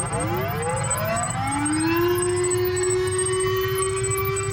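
A civil defense disaster warning siren winds up in pitch over about two seconds, then holds a loud, steady, unbroken wailing tone to the end.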